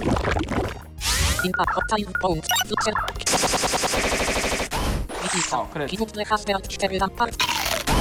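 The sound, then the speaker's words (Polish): A bite attack in the video game Manamon 2 lands as harsh, crunchy, rapid-fire hits mixed with buzzing game effects, while people talk over it for much of the time. “Jeden Pixel został oszołomiony przez gryzienie.”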